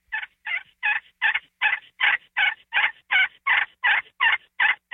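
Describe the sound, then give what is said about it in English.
A hunter works a turkey call to make a tree yelp. It comes as a long run of many evenly spaced, high-pitched yelps at an even volume, with no voices. “I start them with a very, very simple, and you've heard me do this, simple little tree yelp in the morning, that little real subtle”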